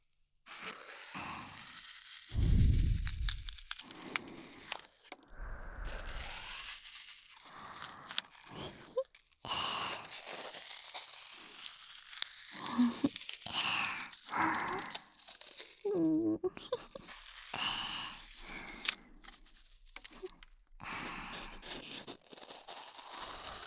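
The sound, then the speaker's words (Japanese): Knife cutting through floral foam, giving faint scratchy, crunchy strokes in irregular bursts separated by brief pauses. “さあ、最初はナイフでサクサク切るぞ。フローラルフォームの可能性に酔いしれろ。”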